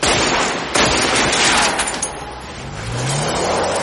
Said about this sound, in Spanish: Chris dispara a la pick desde un punto elevado.